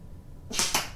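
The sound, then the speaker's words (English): A thrown dart hits a target: two quick, sharp, bright bursts about a quarter second apart break a faint background hush. “Last dart, here we go.”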